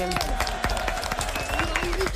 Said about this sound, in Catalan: Forte aplaudiment, molt bé.